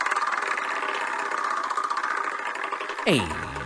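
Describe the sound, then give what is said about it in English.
A prize wheel spins with a rapid, even ticking as its pointer clatters over the pegs for about three seconds. A voice cuts in right at the end. “We call it the Wheel of Useless Knowledge. Let me give you a spin.”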